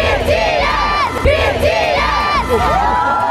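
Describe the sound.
Thousands of fans cheer outside a stadium in Munich hours before a pop concert, a loud and continuous mass of high-pitched shrieks, whoops and shouting voices layered densely with no pause.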